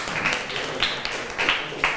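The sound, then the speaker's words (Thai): Students in a classroom give a brief round of applause, scattered claps that blend into a hissy, fairly soft wash with a few sharper hand slaps standing out. “นักเรียนปรบมือให้กลุ่มที่1หน่อย”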